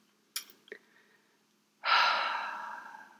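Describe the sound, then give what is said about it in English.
A deep breath: a couple of short, sharp airy intakes, then after a pause a long, loud exhale that gradually tapers off, alone with no talk. “Boy, it feels great to breathe.”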